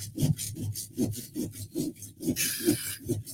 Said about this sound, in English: I got a saw going. Well, this might be the best cut yet.